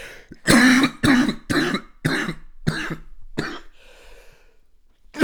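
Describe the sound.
Harsh, hacking coughs from a tickle in the throat: several loud bursts in quick succession, a brief breathy pause, then one more cough at the end.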